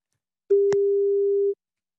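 A telephone line rings after a number is dialled: one steady mid-pitched tone lasting about a second, with a brief click partway through.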